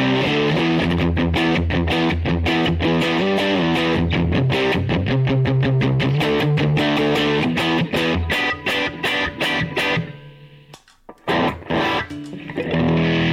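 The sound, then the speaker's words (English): Distorted electric guitar through a SONICAKE effects pedal acting as a boost or distortion: loud, driven chords in a steady rhythm that briefly cut out and then return near the end. “you can definitely hear when I turn it on. It's actually kind of acting like a boost, like a distortion or something.”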